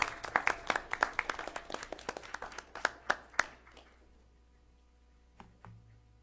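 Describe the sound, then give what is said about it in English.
Applause at a town council meeting welcoming a new police officer to Stanton. Many sharp claps from a modest number of hands ring out, then thin and fade away, followed by a couple of soft low knocks. “Anyway, let's give him a big hand. Welcome to Stanton.”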